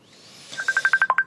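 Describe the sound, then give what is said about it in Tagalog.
A mobile phone ringtone signals an incoming call as a rapid, steady series of bright high beeps that rises out of a faint hum and grows louder. “Oh, may nagpanawag. Cellphone ko.”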